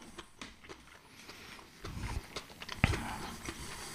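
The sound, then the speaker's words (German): Someone quietly bites into and chews a spring roll, with soft crunching and mouth noises that include one sharper bite partway through. “Ich muss kurz meine Frühlingsrolle aufessen. Die ist sehr lecker.”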